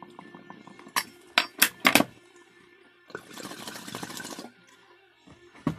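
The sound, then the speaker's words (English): Bubbling of a bong being smoked with weed: a few sharp clinks and taps, then a steady burst of gurgling water lasting over a second before it stops. “Smoke more weed. Straight on the bong. It is. You know what that is, right?”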